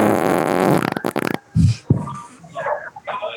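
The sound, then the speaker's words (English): A loud, long, raspy fart buzzes steadily for over a second, then breaks into rapid sputters before stopping, followed by a few scattered softer noises. “I farted. You better. I just farted”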